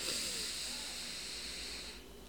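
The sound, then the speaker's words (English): A deep breath drawn in through the nose during a guided breathing exercise: one long, soft, steady hissing inhale that lasts about two seconds before easing off. “Another deep breath in through the nose and out through the mouth. One more time in through the nose”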